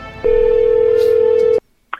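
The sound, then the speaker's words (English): An outgoing telephone call rings once with a steady electronic tone that holds for about a second and a half and then cuts off. A brief, faint blip follows after a short silence. “I'm going to try and call the dojo.”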